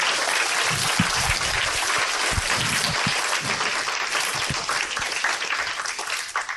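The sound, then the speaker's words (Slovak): An audience at an evening church service applauds the three people who gave the sermon. The clapping is loud and sustained, with a few sharper individual claps standing out near the start. “Prosím, zatlieskajte týmto trom, ktorí vám spravili dnes večer kázanie.”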